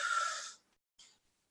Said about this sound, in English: Take a deep breath in.